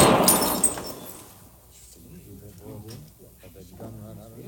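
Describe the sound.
A gunshot blasts a glass out of someone's hand, heard as a sharp crack with shattering glass right at the start. The noise fades quickly, and then a voice speaks.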